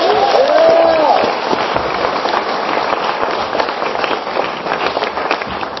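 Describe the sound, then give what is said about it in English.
Audience applause at the 2015 Trans Pride event: dense, steady clapping that holds for about six seconds, with a brief whoop rising over the crowd near the start. “So I want to welcome you all here tonight to 2015 Trans Pride. Put your hands together, guys. Come on.”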